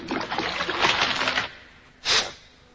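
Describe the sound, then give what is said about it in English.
A cartoon fox hits a tree trunk and slides into a pond: a rough rushing noise lasting about a second and a half, a short pause, then one brief, louder splash. No voices. “The fox hits a tree trunk and slides into a pond.”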